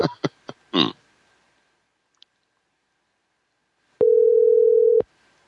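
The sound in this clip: Telephone dial tone after a call is hung up: a few sharp clicks and a tiny tick come first, then after a silence a steady mid-pitched tone holds for about a second and cuts off.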